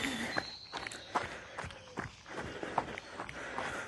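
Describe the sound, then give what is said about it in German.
Footsteps crunch over fallen beechnuts in a small woodland, a steady series of crisp, crackling steps with sharp clicks on a rustling bed of nuts and leaves, with no talking. “mittlerweile bin ich in einem kleinen Waldstück angekommen. Laufe gerade über runtergefallene Bucheckern.”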